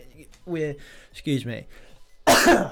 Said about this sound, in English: sorry about that. That was coming for a while. I was thinking, when am I going to cough? I can feel it building up.